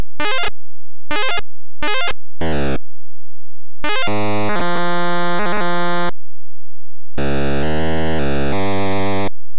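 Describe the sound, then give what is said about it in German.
Harsh electronic sound effects from an early home video game: four short buzzy bursts, then two longer stretches of stepped, square-wave tones and rasping noise. The parts are separated by silences, loud and alone. “können wir ganz kurz reinhören, damit man zumindest so einen Ohreneindruck bekommt, wie sich so ein Spiel damals angehört hat.”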